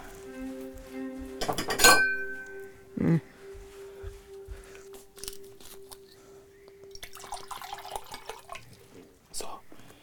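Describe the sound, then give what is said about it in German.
A bottle of water is handed over and drunk from, with a few sharp clinks and knocks, a dull thump and small drips and handling noises at low level between them. “Na klar, ich habe dir eine Flasche Wasser mitgebracht. Hier.”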